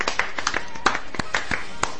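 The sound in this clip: A few people clap for a guest on a show, producing sharp, uneven claps spaced irregularly rather than a full round of applause.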